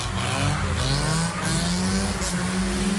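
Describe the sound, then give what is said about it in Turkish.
Car engines roar and rev steadily as two drivers drift at a road intersection, a loud, continuous growl with a hint of tire noise and no voices. “Kavşakta drift atmaya kalkışan iki sürücü trafik güvenliğini tehlikeye düşürdü.”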